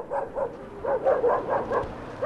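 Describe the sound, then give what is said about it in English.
Dogs barking after dark in a district of traditional circular tents in Ulaanbaatar: many sharp, evenly spaced barks, moderately loud, with no voices. “After dark, dogs bark in the Gir district of Ulaanbaatar”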